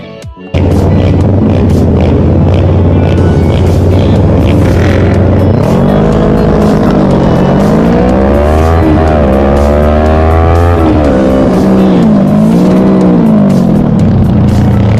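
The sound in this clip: Engine noise from a video of a crash at a kart racing track: a loud, continuous motor whine whose pitch climbs and drops repeatedly in revving sweeps over a steady roar.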